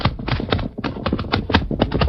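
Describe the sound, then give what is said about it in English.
Horse hoofbeats sound as a horse is led on foot in an old-time radio western. A steady run of many sharp clip-clops keeps an even walking rhythm throughout, heard alone without voices. “dismount, Tonto. Lead your horse into this cut. Come, Silver. Come, Silver. Come, boy. Come.”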